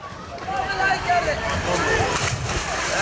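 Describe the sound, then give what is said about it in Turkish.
Children swim and splash in an outdoor ornamental pool in Diyarbakır on a hot day, making continuous sloshing water with a few louder splashes, while a voice talks over it. “Günün her saatinde çocuklar buraya gelerek yüzüyor ve serinlemeye çalışıyor.”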